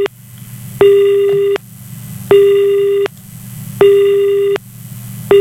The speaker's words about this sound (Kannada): ಕರೆ ಕಟ್ ಆಗಿದೆ